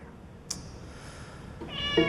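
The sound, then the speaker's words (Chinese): A cat kept in an upstairs room gives a single short meow near the end, a clear harmonic cry that swells in loudness, after one faint sharp click earlier in an otherwise quiet stretch; no talk. “这谁的猫啊？”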